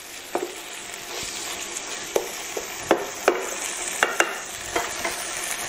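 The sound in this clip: Onion frying in a pan gives a soft, continuous sizzle, broken by many small clicks and taps of stirring.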